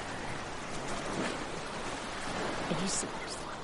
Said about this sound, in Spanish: Julius y Figne juegan en la orilla vestidos con abrigos y botas altas.